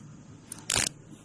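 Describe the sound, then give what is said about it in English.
Handcuffs clicking shut during a police stop, heard as one brief, sharp metallic click after a fainter tick, over a quiet low background with no talking. “Oh, the cuffs. I heard the click.”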